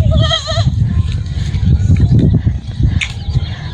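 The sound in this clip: A goat bleats in a single quavering, wavering call at the start, followed by dense low rumbling and shuffling noise for the rest.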